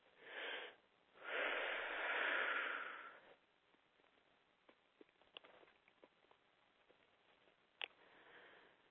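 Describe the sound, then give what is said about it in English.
A big deep breath, heard as a brief intake and then a long, airy, hissing inhale of about two seconds, followed by near-quiet with a few faint soft clicks. “And take a big deep breath.”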